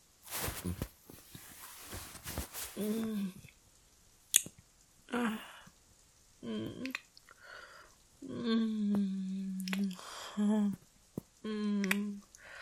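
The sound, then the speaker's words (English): Kissing with soft, wet smacking lip sounds broken into short bursts, mixed with breathy voiced moans and sighs in a quiet, intimate exchange. “Your lips taste so good. I never thought I'd be kissing you.”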